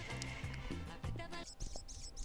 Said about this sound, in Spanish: Vamos a hablar de este pajarito que todavía se escucha.